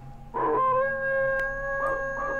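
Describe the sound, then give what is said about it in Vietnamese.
Stray dogs howling on a distant mountainside: a sustained, wavering howl with clear tonal harmonics, lasting about two seconds. “Tiếng chó hoang bắt đầu tru lên ở phía sườn núi xa xa.”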